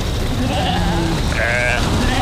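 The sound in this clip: Sheep bleating as a flock is herded, with a few wavering bleats rising over a dense, steady wash of noise.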